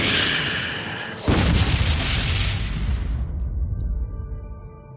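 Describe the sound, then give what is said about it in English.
A tent explodes: a sudden loud boom cuts through a steady roaring noise, then a long rumbling burst slowly fades over several seconds. “And the entire tent explodes.”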